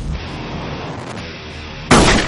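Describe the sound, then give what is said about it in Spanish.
A single loud gunshot, fired into the head of a bloodied woman lying on the ground in an action horror film, bursts out sharply near the end after a steady rumbling background, then rings on briefly. “Le dispara en la cabeza.”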